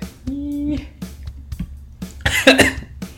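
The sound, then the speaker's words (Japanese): Coughing after choking on something: a brief voiced sound, then a few short rough coughs and throat noises, ending in a louder burst of harsh coughing. “むせた。暑くて。”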